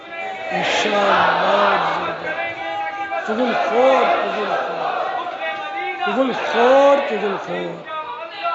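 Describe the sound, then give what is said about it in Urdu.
A crowd chants a slogan against backbiting together at an Islamic brothers' gathering. Many voices carry loud, sustained phrases that repeat a few times. “اسلامی بھائیوں میں سے کوئی غیبت کے خلاف نعرہ لگائے گا نہیں لگائے گا؟”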